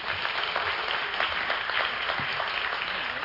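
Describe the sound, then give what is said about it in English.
A church audience applauds in steady, dense clapping that holds at an even level for the whole stretch. “Could you guys give her a hand?”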